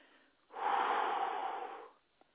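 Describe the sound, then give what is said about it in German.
One deep breath drawn slowly in and out, a soft, airy rush that holds steady for over a second before fading away, heard alone. “atme bitte tief ein und aus”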